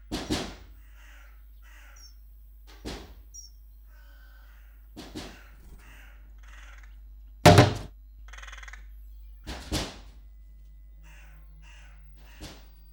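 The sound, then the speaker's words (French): A pet parrot calls in harsh, caw-like squawks, a few short bursts spaced out over quiet stretches, with one louder thump near the middle. “Tu peux chanter, petit loulou. C'est gentil, un petit coco comme ça qui chante.”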